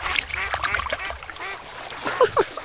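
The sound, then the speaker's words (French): Duck quacks: two short, nasal calls near the end, over a steady bed of trickling, splashing water. “Parfois, on voit un canard passer.”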